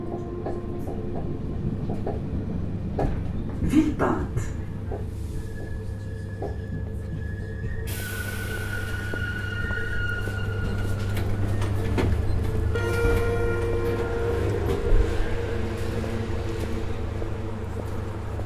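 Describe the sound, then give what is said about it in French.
Train at the suburban railway station of Villepinte: a steady low rumble and hum with metallic squeals and clatter, growing brighter and noisier partway through as the train moves. “La gare de Villepinte se situe à 25 minutes à pied des habitations les plus proches, à savoir la cité des 3000.”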